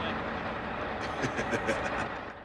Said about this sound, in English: The truck arrives on a road between clapboard barrack houses.